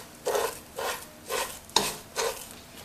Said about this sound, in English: And you're gonna roast this until you're gonna smell a really beautiful aroma